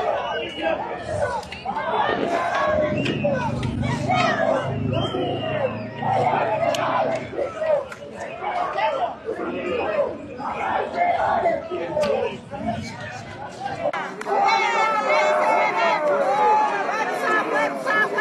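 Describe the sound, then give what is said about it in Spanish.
Shouting and chanting rise from a crowd of thousands of striking workers from various sectors marching through central La Paz on the fifteenth day of a strike called by the Central Obrera; a continuous din of many voices with scattered whoops and chatter. “Miles de trabajadores de distintos sectores confluyeron en el centro de La Paz para exigir la renuncia del presidente Rodrigo Paz en el 15º día de huelga instruida por la Central Obrera.”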